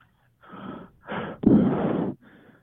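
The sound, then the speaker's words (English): Shallow, hurried breathing into a microphone: a few wheezy, breathy inhales and exhales, the loudest in the middle, trailing off with a fainter final breath. “take a deep breath, okay? Into the microphone so we can hear it.”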